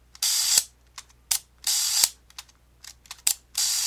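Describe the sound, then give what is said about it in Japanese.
Ratcheting clicks come from the spring drive of a Fuji film camera being wound by hand. A rapid, uneven run of bright mechanical bursts mixes longer winding strokes with short clicks, with no voices. “こいつでね連続17枚速射ができるっていう、しかも電池の位置で手で巻くんだよ”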